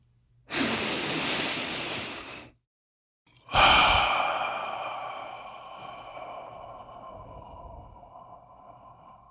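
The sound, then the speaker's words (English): A deep breath: a long, breathy inhale of about two seconds, a brief pause, then a loud, drawn-out exhale that slowly fades away, with no talking. “let's take a deep breath”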